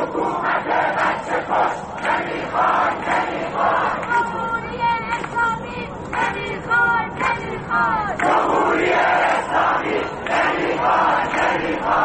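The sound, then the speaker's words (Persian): Protesters in Iran's Ekbatan chant slogans against dictatorship in passageways, a loud crowd of shouted, rhythmic chanting that carries on without pause. “مردمی که در گذرگاه ها علیه دیکتاتوری شعار می دهند و حکومت را به کشتار کودکان متهم می کنند.”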